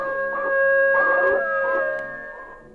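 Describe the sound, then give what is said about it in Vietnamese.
A dying pet dog lets out a single mournful, wavering howl that swells and then fades, over a steady, sustained tonal background. “Bỗng, con Ki tru lên một tiếng, rồi gục xuống mà chết.”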